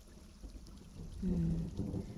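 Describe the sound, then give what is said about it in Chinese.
Rain falls outside a school campus as a faint, steady patter over a low rumble, growing somewhat louder in the second half. “外面可是已经开始下雨了。”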